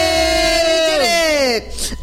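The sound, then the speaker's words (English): Live studio audience shouting out on cue, a long sustained yell that drops in pitch near the end, followed by a short noisy burst of crowd cheering. “we have our live audience. The audience has expanded. Audience, say something. Do a little shout out.”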